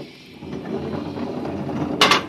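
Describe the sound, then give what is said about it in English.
A futuristic airlock door opens in a tunnel: a low mechanical rumble and hum runs steadily, then a short bright hiss bursts out near the end. “I'll open the airlock.”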